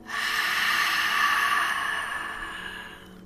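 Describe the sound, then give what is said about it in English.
A deep breath, drawn in through the nose and let out through the mouth, heard alone as one long, steady, airy rush of breath that fades toward the end. “Deep breath in through the nose. Deep breath out through the mouth.”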